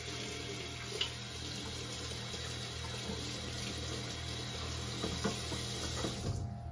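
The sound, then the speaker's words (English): Water runs steadily from a kitchen tap as hands are washed during cooking. A soft, continuous hiss carries faint splashes and a few light knocks, with no talking. “Let's wash our hands.”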